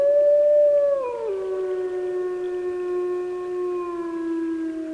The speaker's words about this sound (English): That's a lone wolf howling beside the Nezetlin River in the Yukon Territory.